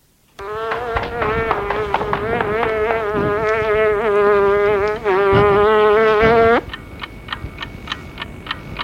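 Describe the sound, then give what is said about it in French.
A housefly buzzes in a loud, steady drone with a slightly wavering pitch for about six seconds as it flies off, then cuts out abruptly and is followed by a run of faint, regular ticks. “La mouche s'envole.”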